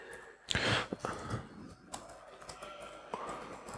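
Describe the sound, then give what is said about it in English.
Typing on a computer keyboard to restart a supervisor process after it was killed with Control C, a faint, irregular series of key clicks with a few louder taps. “I'm going to start the supervisor again because I hit Control C and killed it.”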